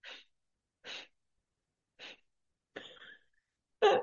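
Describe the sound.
A voice imitates nose blowing by puffing air through the lips, as a child might when learning to blow their nose: five short, breathy bursts with gaps between them. The last two puffs are louder and rougher.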